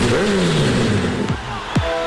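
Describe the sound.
A motorcycle engine revs with a droning, wavering tone that slides lower, then two sharp downward pitch swoops cut in quickly one after the other.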